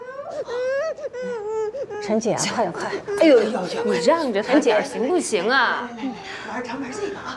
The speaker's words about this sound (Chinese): 你给妹妹，妹妹都哭成这样了